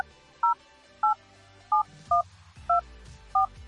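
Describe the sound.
Six touch-tone beeps as a telephone number is dialed. Each beep is short and two-pitched, and they come at a steady, slightly uneven pace over a faint low background.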